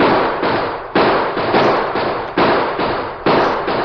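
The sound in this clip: Gunshots ring out in a Western shootout at a porch: many sharp, loud bangs fired in quick succession, each with a brief decaying tail that runs into the next, with no voices.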